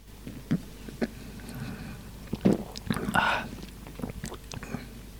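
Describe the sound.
Sips of a coffee-flavoured beer: a few soft mouth clicks and small wet smacks, then a short slurp and swallow in the middle, all quiet and close.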